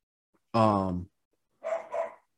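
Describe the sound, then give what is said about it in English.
A dog barking: a drawn-out, tonal vocal burst followed by two quick, rougher barks, fairly loud against near silence, with no talking. “Y'all got to excuse my dog in the background, man. He always got to bark at least once per episode”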